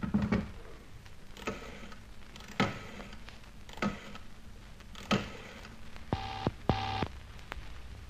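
A telephone is dialed for a Mayfair number: a few dull clicking bursts spaced about a second apart, then two short buzzing tones in quick succession, all fairly faint over low background hiss.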